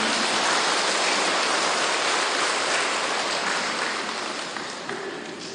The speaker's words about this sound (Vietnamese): Vỗ tay tặng cho quý vị.